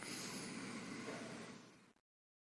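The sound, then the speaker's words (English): A single nasal inhale drawn in through both nostrils during alternate nostril breathing, a steady, airy rush lasting about two seconds that tapers off at the end. “breathing in through both. Breathing out of the left. Inhaling.”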